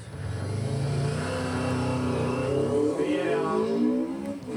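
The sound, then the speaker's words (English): A motorcycle engine fitted with pod filters revs and downshifts with the throttle opened wide, giving a loud, steady, buzzing drone whose pitch climbs sharply around the middle before settling. “And downshift sounded mad because I opened the throttle quite a bit.”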